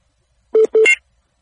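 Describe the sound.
Two short telephone keypad tones sound in quick succession as a phone call is dialed, crisp and fairly loud, with silence before and after.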